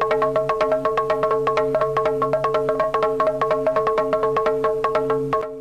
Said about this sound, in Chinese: 你听到的这个是两个人敲击一块木板发出的节奏。